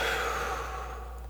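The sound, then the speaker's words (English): A single soft, airy breath through the nose, part of a slow calming breath in and out, whooshes and fades away over a steady low hum. “I'd like to invite you to begin breathing in through your nose. So let's take a slow breath in and a calming breath out.”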